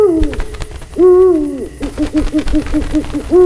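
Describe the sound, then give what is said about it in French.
An owl hoots at night in two long, wavering hoots, then a rapid run of short, evenly spaced hoots at a steady low pitch. The calls are clear and loud, with no voices. “Pendant le jour, on ne voyait pas Monsieur Hibou. Forcément, il dormait. Mais pendant la nuit,”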